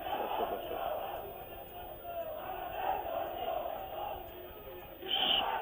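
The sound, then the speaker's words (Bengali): A crowd at a political gathering chants slogans, massed voices rising and falling in repeated waves at a fairly low level, then swelling into a louder burst near the end. “সবাই দয়া করে slogan বন্ধ করবেন।”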